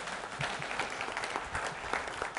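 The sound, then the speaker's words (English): Applause from an audience fills the moment, a dense, even patter of many hands clapping at a fairly low level throughout. “Give the man a round of applause.”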